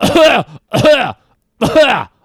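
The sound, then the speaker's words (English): A voice imitates harsh, repeated coughing, mimicking someone coughing in sets over and over. Three loud, rasping bursts come alone, separated by short silences, with a longer gap before the last. “doing a quadruple cough, sets of four, and clearly not blocking it”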